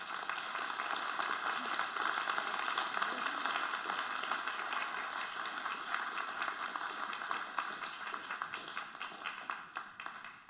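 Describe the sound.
An audience applauds warmly as four mothers come forward, the clapping dense and steady throughout, turning slightly more uneven toward the end.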